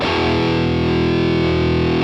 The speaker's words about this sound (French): Simplement, sachez qu'il y a 2 sons principaux à la guitare électrique. Le son saturé.